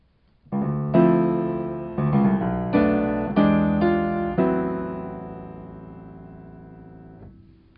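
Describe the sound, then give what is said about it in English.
A ii–V–I cadence resolving to the relative minor, opening on a ii minor seventh chord: a run of distinct sustained chords struck one after another, the final chord ringing on and slowly fading. “it does a 2-5-1 to the relative minor, and it sounds like this.”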